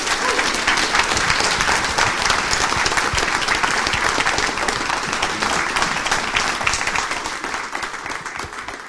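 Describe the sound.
An audience applauds to welcome a guest speaker, a dense, steady clapping that continues for about nine seconds and eases slightly toward the end.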